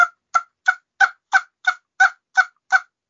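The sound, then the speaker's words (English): A blown turkey call giving nine evenly spaced, reedy honks with a buzzy, party-horn-like tone, each note short, bright and equally loud, heard alone. “Hey, so, it sounds just like a party horn, so that's great.”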